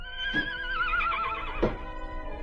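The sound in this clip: A horse neighs in a loud, quavering whinny that slides downward in pitch over about a second, with a couple of dull thumps on either side of it.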